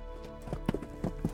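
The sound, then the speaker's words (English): Horses approaching on a road at night, their hooves pounding in a quick, uneven clip-clop of a few faint beats over a low, steady background hum. “In the semi-darkness, there was the pounding of horses approaching us, alerting us to the fact that we weren't alone on the road.”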